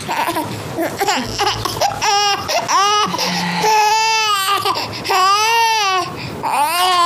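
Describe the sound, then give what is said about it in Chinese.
Baby crying: several loud, high wailing bursts with short gaps between them, rising and falling in pitch. “这孩子怎么这么能哭？”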